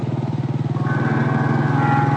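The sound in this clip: A motorcycle ridden slowly along a quiet, dimly lit road gives a steady, low engine rumble with a fast, even pulsing throb that holds at an even loudness throughout.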